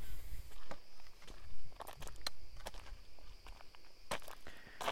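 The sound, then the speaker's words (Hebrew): Footsteps of a person walking in a forest on a hot day: many faint, uneven steps that form a loose, irregular rhythm over quiet background noise. “כי קודם הקלטתי בישיבה ועכשיו אני צועד”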